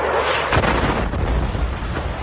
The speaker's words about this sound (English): this massive blast rocked a city in Ukraine. This man was shooting a selfie video when the missile struck.